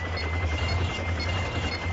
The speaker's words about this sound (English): Now, we have a helicopter here.